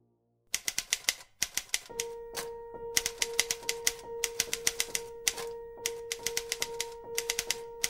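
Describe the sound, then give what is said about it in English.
A manual Royal typewriter clatters as its keys strike in rapid bursts separated by short pauses, with a steady tone setting in beneath the crisp, fairly loud keystrokes after a couple of seconds. “In Atonement, Joe Wright's Oscar-winning adaptation of Ian McEwan's novel, Robbie Turner types up a unique declaration of love to Cecilia Tallis. He starts out trying to write a note of apology on his Royal No.”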